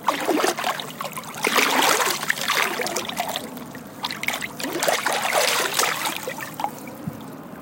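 Water splashing and trickling in a cold lake, the water about 6 degrees and the air around 8 to 9 degrees, a steady, fairly loud churn of splashes with no voices.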